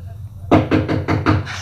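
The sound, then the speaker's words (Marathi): Knocking on a door: five quick, evenly spaced knocks with a dull thudding tone, fairly loud over a low hum. “खरंच कुणी दरवाजा ठोठावला काय हो?”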